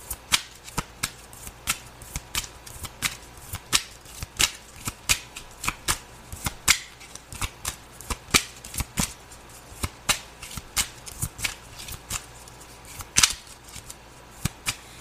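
A tarot card deck is shuffled over and over, with many crisp card slaps and riffles in a loose, fairly regular rhythm, alone and without talk.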